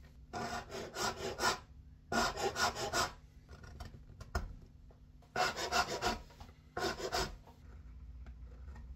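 A file rasps against a violin nut to lower it. Quick scraping strokes come in four short bursts separated by pauses, faint and dry with no talk.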